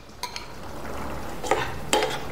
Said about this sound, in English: So add the beans along with a little bit of their water